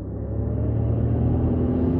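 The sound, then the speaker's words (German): A new car glides along well-lit, empty streets with a steady, low engine rumble. The road hum stays even in level and pitch throughout, with no voices or other sounds. “Der neue Wagen von Dr. Tyler glitt die gut beleuchteten leeren Straßen entlang.”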